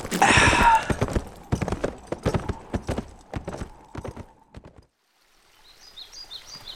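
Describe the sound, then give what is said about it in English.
Horses loaded with bundles of rifles clip-clop as they ride into a mountain valley. The hooves beat in a steady, uneven rhythm that grows fainter and stops, followed by faint bird chirps. “The horses are loaded with bundles of rifles.”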